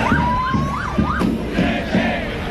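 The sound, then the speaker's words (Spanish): A protest march crowd in Madrid reaches its tensest moment near the end of the route as protesters push against the police cordon. A wailing siren rises and falls over a loud, continuous crowd roar. “Este es el sonido de una marcha que ha vivido sus momentos de mayor tensión al final del recorrido,”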